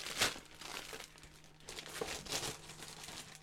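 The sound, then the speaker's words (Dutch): Crinkling and crumpling of wrapping as a gift package is unwrapped, a few soft rustling bursts with the sharpest near the start, faint and without voices. “Maak maar even open. Ik pak hem uit.”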